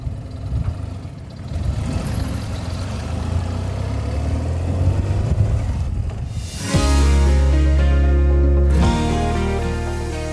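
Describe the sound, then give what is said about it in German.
Car engine and road noise while driving along a tree-lined country avenue road toward Trent; a steady hum runs throughout, and a denser tonal layer joins partway through and holds to the end. “Wir fahren jetzt über die L30 in Richtung Trent und dann weiter nach Bergen bis nach Putbus.”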